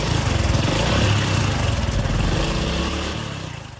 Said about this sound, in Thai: สตาร์ทรถออกไปกันเลย